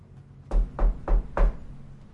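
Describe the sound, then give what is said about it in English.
Knocking on a door: four evenly spaced, dull, low thuds in a steady rhythm, with quiet pauses between them and faint background noise. “Uh, I'm gonna go knock on the door.”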